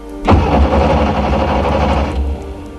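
A car engine being started: a loud, sustained mechanical whirring that kicks in abruptly and runs steadily for about two seconds before fading out.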